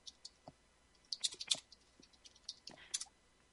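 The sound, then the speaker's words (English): Typing on a computer keyboard: many quiet, irregular key clicks, some in quick clusters, with a few sharper taps standing out against a near-silent background. “Let me just type this in.”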